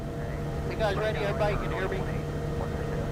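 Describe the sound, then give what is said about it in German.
Steady droning engine hum of a propeller plane taxiing to the runway at a small airport in Takotna, a constant low tone under a voice talking. “Die Propellermaschine rollt zur Startbahn auf dem kleinen Flughafen in Takitna.”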